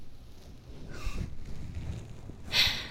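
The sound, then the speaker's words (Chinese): Loud sniffing breaths as a man inhales hard at the sole of someone's foot: two noisy, breathy bursts, the second sharper and louder, over a low rumbling background. “他不仅求我，还在努力的大口的吸气，拼命的闻我脚掌的味道呢。”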